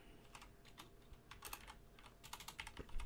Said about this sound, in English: Jesus Christ, if I could type, we'd be finished this sentence. We would have been finished hours ago if I could learn to fucking type.